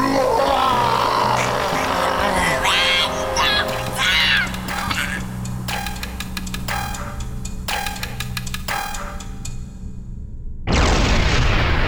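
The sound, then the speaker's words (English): A spaceship explodes in a science-fiction drama. Voices and layered effects come first, then a sudden loud, full-bodied blast bursts in near the end. “I watched Vilgreth's ship explode on the scanner.”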